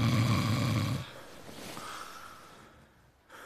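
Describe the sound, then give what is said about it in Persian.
A man snores in his sleep with one loud, rasping low snore lasting about a second, followed by quieter breathy noise. “آره دیگه خوابه نمیبینی پس چرا چشاش بازه؟”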